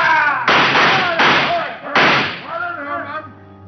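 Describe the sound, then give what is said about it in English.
Gunfire in a radio drama shootout at a window: three loud blasts, each holding a short, roaring tail, come in quick succession, followed by quieter tonal sounds as the noise dies down. “He and Fenner made a rush to the window, but some of Walt's men were waiting for them. They tried to shoot it out.”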